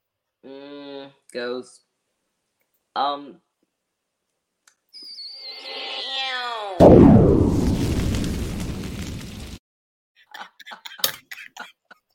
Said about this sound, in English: Every time you do that shot's fired, it mutes me.